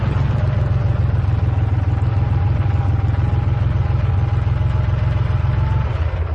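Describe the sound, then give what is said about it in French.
A car engine idles outside a sorcerer's hut in a steady, low, even rumble with a faint clatter, holding constant throughout with no talk. “Je vais laisser la voiture ici.”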